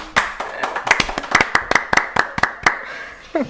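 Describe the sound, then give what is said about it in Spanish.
Applause made of many sharp, irregular hand claps, fairly loud and dry, coming in an uneven run from what sounds like a small group. “pues un aplauso para Plisken y Sakursky.”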